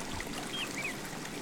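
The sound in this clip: The Avon River flows past a retirement residence in Stratford with a soft, steady rush of water. A few faint, high chirps flicker above the flow.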